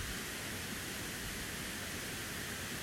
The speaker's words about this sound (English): You may be able to hear the water falling over the rocks in the background.